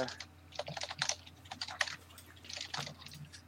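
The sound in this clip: Typing on a computer keyboard: a quick, irregular run of many light key clicks, fairly faint, with a brief lull partway through before the tapping picks up again.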